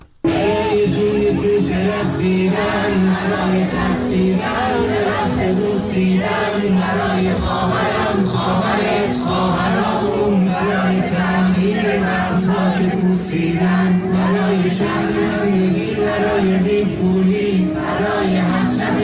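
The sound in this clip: A crowd chants a protest song in the streets of Iran: a loud, dense, continuous wash of many voices with sustained sung tones running through it.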